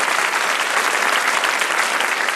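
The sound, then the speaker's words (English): An audience gives a round of applause for two debate teams: steady, dense clapping that carries on evenly throughout, with no talk over it. “I applaud both sides for going to that point and for a very, very spirited debate from both teams today. I'd just like to give them a round of applause.”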